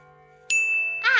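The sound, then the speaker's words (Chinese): A pendulum clock chimes with one bright, clear ding that rings on steadily after a sharp strike. It stands out loud against a faint low hum. “摆钟被拆坏，就真的出不去了。啊，好难哦！桌上有报纸、照片，但是我们出…… 我们得在钟声结束前出去。”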